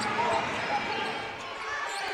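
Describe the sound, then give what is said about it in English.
Basketball dribbling on a court during a game, the ball bouncing repeatedly beneath a constant wash of loud crowd noise that nearly buries the individual thuds. “dribbling it up on the left wing”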